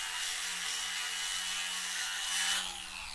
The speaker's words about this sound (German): Ein Mitarbeiter der Werft nimmt einen Winkelschleifer. Staub und Dreck fliegt durch die Luft, während er die Stellen freilegt, wo der Rost festsitzt.